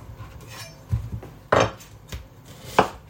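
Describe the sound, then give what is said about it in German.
Onions are dropped one after another into a larger bowl, producing a few dull knocks and clatters at uneven intervals, the two louder ones sharper than the rest, against a quiet background. “So, machen wir das mal in eine größere Schüssel rein, die Zwiebeln. Eine, dann die zweite.”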